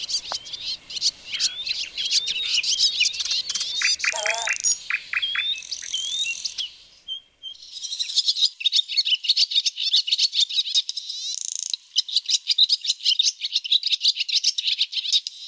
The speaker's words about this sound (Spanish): una golondrina pasa volando y se detiene en una rama, cerca de la escena.